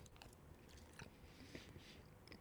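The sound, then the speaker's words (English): Soft, faint biting and chewing of beef rendang, spiced beef with rice, with a few gentle crunches and moist chewing sounds over a low steady hiss. “I'm going to take a bite right now of this beef rendang.”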